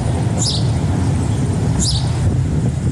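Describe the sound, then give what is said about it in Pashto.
A bird cries out in two short, high calls spaced well apart, both faint above a steady low rumble that continues throughout. “د مرغۍ چغا په خود کړ.”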